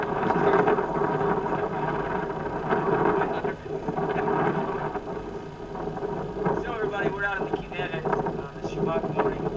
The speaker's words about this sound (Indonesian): Dan coba perhatikan deru suara angin dan juga ombak yang besar.